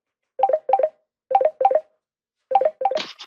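Telephone dialing tones: crisp, bright beeps in quick pairs, several pairs separated by short pauses, ending with a brief burst of hiss.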